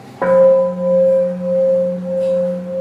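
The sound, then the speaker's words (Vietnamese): A mindfulness bell is struck once, sharply, and then rings on in a loud, clear sustained tone that pulses slowly as it hangs in the air. “tiếng chuông huyền diệu đưa về nhất tâm.”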